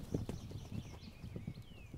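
A herd of horses moves calmly toward a newborn foal, their hooves making faint, irregular clopping steps that overlap in a soft, steady shuffle.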